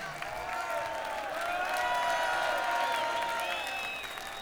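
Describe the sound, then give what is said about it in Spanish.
Concert audience applauding crew members called out from the stage, a dense, steady wash of clapping with some cheering that swells slightly in the middle and holds for about four seconds. “quiero que deis un aplauso muy grande a JJ”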